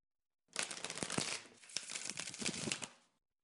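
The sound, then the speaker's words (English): Tarot cards being shuffled and drawn, a soft papery rustling and flicking that runs for about two and a half seconds with a few sharper snaps, alone and quiet. “I only drew the customary 4 cards today for this collective intuitive reading, not 12.”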